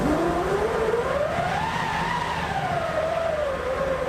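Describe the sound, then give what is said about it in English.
A hand-cranked wind machine, a canvas-wrapped wheel in an orchestra's percussion section, being wound up: a continuous whooshing tone climbs in pitch, peaks midway, then slowly sinks again, steady and fairly loud throughout. “Plus, back in the percussion section, we hear the wind-up of a wind machine.”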